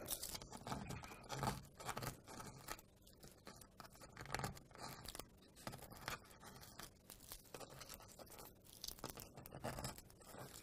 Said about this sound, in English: So now that I have my pattern woodburn, I'm going to turn it off. And then I just peel off the sticker burn, so it just peels off.